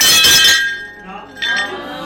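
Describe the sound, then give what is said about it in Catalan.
A plate-breaking sound effect: a bright, brittle crash of shattering crockery, followed a moment later by a shorter glassy clink, with people talking around it. “Aquest efecte de plat trencat em torna una mica loco, perquè no sé si acaba de trencar-se aquest plat.”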